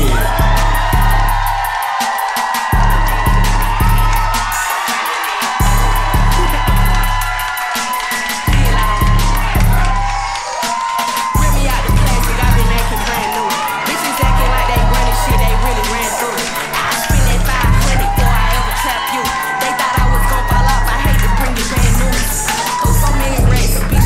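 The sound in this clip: Audience at a live show in a theater cheering, whooping and yelling as a guest is welcomed on stage, a loud, sustained wave of voices that swells and surges repeatedly over the long stretch.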